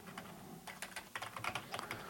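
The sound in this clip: Typing an email address on a computer keyboard produces quick, irregular soft clicks at a fairly faint level, with no talking.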